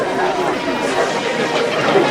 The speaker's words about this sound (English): There is a crowd at the front of the shop.